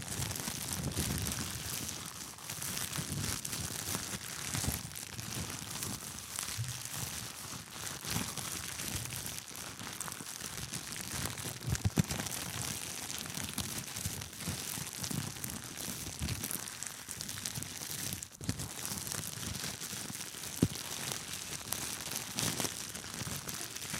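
Crinkling plastic foil from a veterinary glove fills the whole stretch with a dense, continuous rustle at a fairly even loudness, broken by a few sharper crackles.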